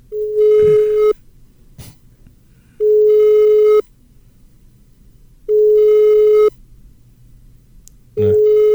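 A telephone busy signal sounds while a call is being placed: a steady, fairly high tone repeating in four evenly spaced bursts about a second long, separated by longer silent gaps, with the last burst cut off.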